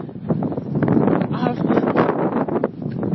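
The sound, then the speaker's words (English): Wind blows outdoors on a walk among storm-battered trees, buffeting the microphone with a rough, fluctuating rumble that swells and eases in gusts. “My first time out walking this week, so for some reason, the wind is coming.”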